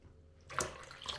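Water poured into flour for dough: after a short near-silence, a faint, steady splashing pour starts and runs on to the end.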